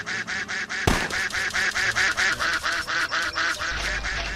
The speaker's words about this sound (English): All right, come on, duck. You stupid duck.